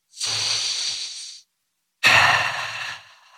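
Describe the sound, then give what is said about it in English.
A deep breath taken in one long, airy inhale, a short pause, then an equally long breathy exhale. Two soft, sustained breaths with no talking. “Let's do a little check-in, maybe a little deep breath.”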